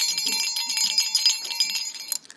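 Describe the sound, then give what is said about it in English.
A small holiday bell rings in quick, bright, high-pitched strikes that run on steadily, then the ringing stops and fades near the end. “little holiday bell.”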